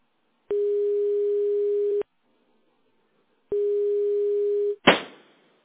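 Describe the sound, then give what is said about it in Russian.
A telephone call rings with no answer: two long, steady ringback tones separated by a pause, then a short sharp click. “Продолжаю вызов. Пока что абонент не отвечает.”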